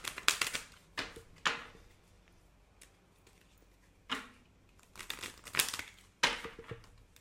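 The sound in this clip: Oracle cards being shuffled and drawn, heard as crisp papery rustling and crinkling in a few short bursts separated by quiet pauses, with no voices.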